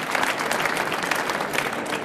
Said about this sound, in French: Vous pouvez applaudir Lydie Salvert, ici au Salon du Livre de Genève.